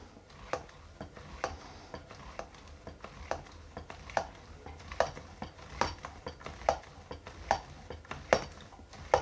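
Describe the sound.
Dough for Nockerl dumplings is scraped through a dumpling grater into a pot, making many faint, regular rasping strokes in a steady rhythm, with no talk.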